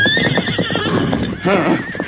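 A horse neighs loudly as it is reined in to a stop after a hard ride, giving a long, shaky whinny with a wavering, fluttering pitch.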